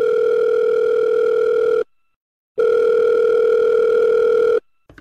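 Telephone line tone as a call is placed by speed dial: two long, steady buzzing tones separated by a short silence, each one loud and even, with no talk.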